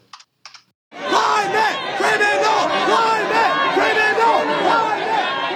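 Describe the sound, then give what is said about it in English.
Climate protesters shout and chant loudly, interrupting a Donald Trump speech in Iowa. A few sharp clicks come first, then a dense, sustained roar of crowd voices. “Climate protesters interrupting a speech by Donald Trump in Iowa.”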